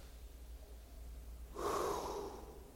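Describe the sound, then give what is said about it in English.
A deep, sharp breath drawn in as a group prepares to pray: faint background hum for about a second and a half, then one loud, snorting rush of air that lasts about a second before easing off. “Let's take a deep breath.”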